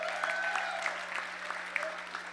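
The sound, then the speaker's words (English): Audience applause for a woman introduced at a church gathering, a steady wash of clapping with a low hum underneath. “Give her a hand.”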